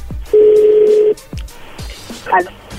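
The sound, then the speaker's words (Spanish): Telephone dialing tones as a call is placed: one long, steady, loud tone, surrounded by a few low thumping knocks. “No, llámalo otra vez, güey. Ya entró la llamada ahí de nuevo.”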